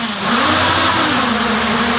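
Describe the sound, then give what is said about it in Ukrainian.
Military drone motors run up during a test in a drone battalion's workshop, giving a loud, steady buzzing whine over a broad rushing hiss that holds one droning pitch throughout. “Не лякайтеся, цей дрон не в полоні і йому нічого не загрожує. Це лише тестування його двигунів.”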